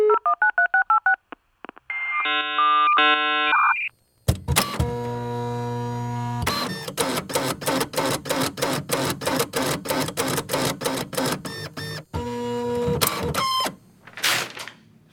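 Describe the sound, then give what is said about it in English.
Geek-O-Matic news machine sound effect: a run of telephone-keypad tones and electronic beeps, then loud, rapid rhythmic mechanical clacking like a printer or teletype, broken by short pauses and ending with a few bursts. “But first, Tim, flip the switch on the Geek-O-Matic news machine.”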